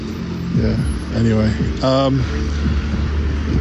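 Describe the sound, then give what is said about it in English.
A bus arriving at a station in the rain, a loud low engine rumble with humming tones running throughout while a person talks over it. “so yes, now it's time to rain as well. Oh, here comes a bus. I don't know what this one is.”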